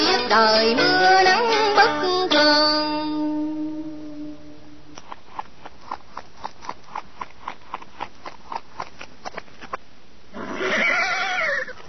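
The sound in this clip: A horse arriving with its rider at night: a long run of steady, evenly spaced hoofbeat clicks, then a loud, quavering neigh at the end.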